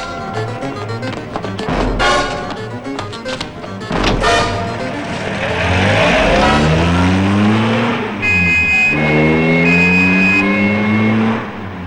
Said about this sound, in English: He turns as a police car screeches to a halt.